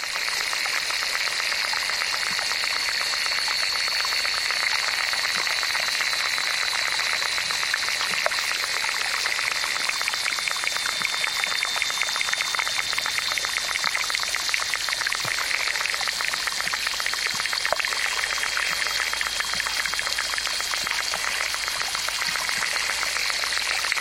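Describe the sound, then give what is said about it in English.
Underwater insect sounds from a small pond in Mora, New Mexico, picked up by a hydrophone: a dense, continuous crackling and ticking hiss with a faint steady high whine, unchanging throughout. “Using an underwater recording device called a hydrophone, David Dunn collected this collage of insect sounds from a small pond in Mora, New Mexico.”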